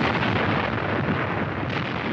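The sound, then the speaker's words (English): Bombs exploding as Russian bombers attack Helsinki, heard as a continuous, loud, dense roar of blasts and rumble with no break or pause. “Again the Russian bombers zoom over Helsinki. Again a proud city is shaken by the roar of destruction.”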